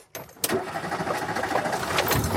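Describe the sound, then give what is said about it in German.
A classic Renault 4 car engine at a 65th anniversary club meeting in Lower Franconia bursts into life after a brief cough, then runs on in a steady, rough rumble. “Der Renault 4. Eine Leidenschaft auf 2 Achsen und 4 Rädern.”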